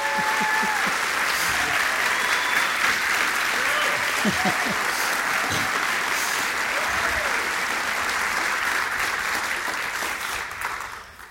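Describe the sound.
An audience at an onstage talk at a community center applauds as an author and his interviewer are welcomed onto the stage. Thick, even clapping holds steady for a long stretch, then thins and fades out at the very end.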